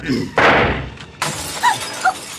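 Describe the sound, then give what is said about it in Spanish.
A gunshot shatters a lamp bulb: a sharp, loud burst followed by the crash of breaking glass and a few bright tinkles of falling shards. “Un segundo disparo rompe el foco de la lámpara, dejando la habitación de Calimán a oscuras.”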